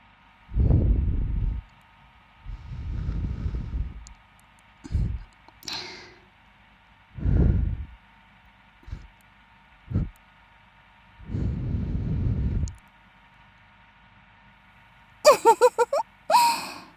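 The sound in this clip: Soft breaths blown into the ear come as several low, muffled puffs of uneven length, some long and drawn out, others short, separated by pauses, with a few brief clicks near the end.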